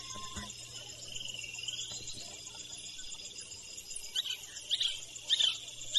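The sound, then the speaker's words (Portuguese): A dense, steady insect chorus fills a rainforest soundscape in Couto Magalhães, Brazil, recorded on cassette in February 1982, with a few short bird chirps breaking through near the end. “Fita 21, lado B, fevereiro de 1982. Couto Magalhães, Canto de Pássaros.”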